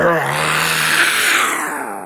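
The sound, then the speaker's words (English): A person imitates a lion's roar with the voice. A single loud, rough growl lasting about two seconds starts on a voiced tone, turns into a raspy breathy rumble, and eases off slightly at the end. “You just have to roar like a lion.”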